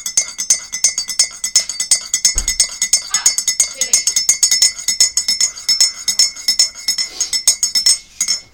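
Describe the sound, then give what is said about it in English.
A teaspoon stirs coffee in a cup, making many rapid, bright metallic clinks against the sides in a loud, steady, regular rhythm that continues throughout. “There is the teaspoon. Right, let's stir this properly”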